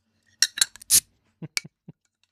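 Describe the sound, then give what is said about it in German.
A bottle of beer being opened: a few light metallic clicks and clinks, then a short, sharp hiss as the cap comes off, followed by a few soft knocks. “Ich habe mir ein Bier geholt, ich muss jetzt mal Bier aufmachen.”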